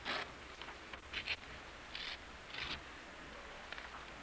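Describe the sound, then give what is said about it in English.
Paper programs being torn by an audience during a church service: a few short, quiet rasping rips scattered over a soft background hush. “take your program and let's tear that now so we do all the tearing at one time and there won't be the noise later in the service.”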